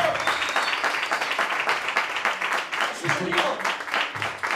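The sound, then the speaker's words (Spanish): Crowd applause greets a man called up on stage at a live event: many hands clap in a dense, fast patter that stays fairly even throughout, with voices faintly audible beneath the clapping toward the end. “Un fuerte aplauso para Pepe.”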